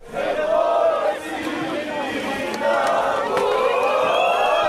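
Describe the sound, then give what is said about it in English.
A crowd fills a town square after the Croatian national football team's defeat, recorded while riding a bike. Many voices blend into a dense, steady murmur with occasional raised shouts, continuous throughout. “This is how the square sounds after the defeat of the Croatian football team.”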